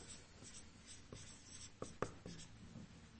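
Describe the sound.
Writing on a board during a church teaching session: faint scratchy strokes and a few sharper taps as words are written out. The scraping comes in short uneven bursts, with a couple of louder clicks near the middle.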